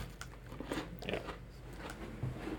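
Crunchy biting and chewing of biscuits, with a few crisp bites followed by softer chewing crunches in an irregular rhythm. The sound is fairly quiet and has no talk over it.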